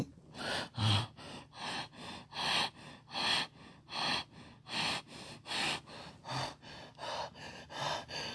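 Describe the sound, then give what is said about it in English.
Heavy, rapid breathing from a person: many loud, airy gasping breaths in a steady, fast rhythm, each sharp and breathy, with no talk over them. “Oh God, why am I breathing like this?”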